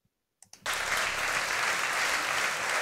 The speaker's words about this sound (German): Warum klatscht ihr?